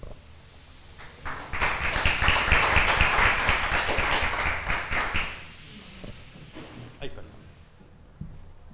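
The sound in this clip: Applause from the audience at a poetry reading: several seconds of many hands clapping in a dense, steady patter that fades away, with voices talking before and after it.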